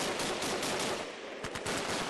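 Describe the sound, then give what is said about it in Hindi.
A light machine gun fires bursts in battle, a dense, loud roar of rapid shots blurring into near-continuous noise, with a few sharper distinct cracks standing out toward the end. “हवलदार दयाराम ने LMG को संभालते हुए दुश्मनों पर गोलियों की बौछार शुरू कर दी”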